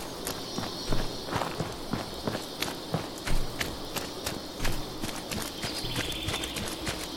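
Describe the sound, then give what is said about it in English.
Running footsteps of a character in a video game: quick, fairly even steps that keep a steady pace over a constant background tone. “I'm just going to keep running.”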